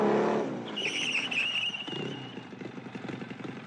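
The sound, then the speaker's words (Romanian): A motorcycle engine roars loudly at first, then settles into a steady, buzzing rumble that slowly grows fainter. “Cine vine cu motocicleta aia?”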